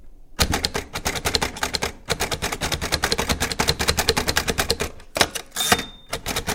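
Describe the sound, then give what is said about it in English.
Rapid mechanical clacking from a 6-button Brailler machine typing Braille during a competition to transcribe spoken words. Many dense keystrokes run in quick bursts, broken by a few short pauses. “Contestants will use a 6-button Brailler machine to transcribe your speaker's voice into Braille.”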